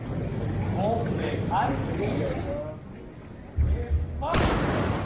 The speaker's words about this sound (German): Seit letztem Jahr hat die Schützengesellschaft Kamenz das deutschlandweit erste und einzige weibliche Salutkommando. Dabei wird auf Kommando zu Ehren einer bestimmten Person oder eines Anlasses geschossen.